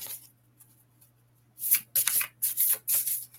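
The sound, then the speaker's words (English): Playing cards drop and scatter in a quick run of crisp, papery slaps and flutters after a quiet stretch. A low steady hum sits underneath. “Oh, shoot. I just lost the cards.”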